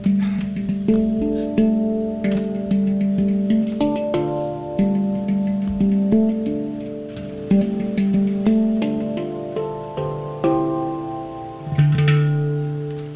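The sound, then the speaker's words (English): A steel hand pan is struck in a slow melodic pattern; many soft, bell-like notes ring out with long, overlapping decays and a shimmering resonance, played alone. “So this is the hand pan, and it is a really interesting instrument. It looks like a UFO. Kind of sounds like UFO too, so I'll play it a little bit for you.”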